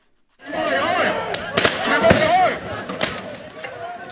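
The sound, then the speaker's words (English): Tear gas rounds fired on a university campus in Hong Kong during protests: several sharp bangs and thuds break through a continuous, loud roar of crowd noise, and voices shout throughout. “Firing tear gas on campuses, again, a new development.”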